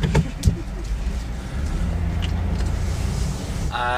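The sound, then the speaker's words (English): A car reversing down a quiet road, giving off a steady low engine rumble after a couple of sharp knocks at the start. “As I reverse down this road, down this lonely road, I drive alone.”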